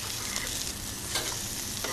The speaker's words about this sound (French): C'est de la cuisine sur l'instant, le foie gras poêlé ? Oui, absolument. Voilà. On retourne déjà, vous voyez, une belle coloration.